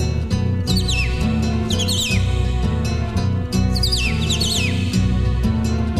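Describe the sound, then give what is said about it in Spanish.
A cardinal sings repeated phrases of clear, descending slurred whistles, the phrases coming in pairs over a continuous low background. “Canta el cardenal.”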